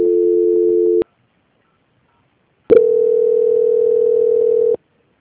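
Telephone tones play while a bank call is transferred: two steady single-pitched beeps, a short one and then a longer one about two seconds long, separated by silence.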